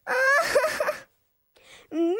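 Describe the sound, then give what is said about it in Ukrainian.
A girl crying: a wavering, wailing sob, then a short silence, a quieter whimper and a rising wail, with no clear words. “що трапилось? Чого ти плачеш?”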